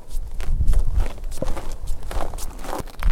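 Footsteps walking a few metres toward a ladder, a series of soft, uneven thuds and scuffs in a steady walking rhythm, with faint background noise throughout.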